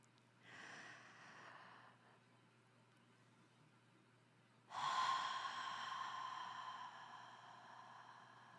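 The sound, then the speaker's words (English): A deep breath taken slowly with no talk: a softer airy intake of air, a short lull, then a louder, longer rush of breath that tapers off gradually. “Join me in starting with a deep, deep breath.”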